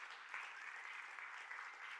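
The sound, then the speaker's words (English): A church audience applauds the tech team: soft, even clapping from many hands that forms a continuous, faint patter for the whole stretch. “the most amazing people in the back of the room, give a big round of applause to the tech team”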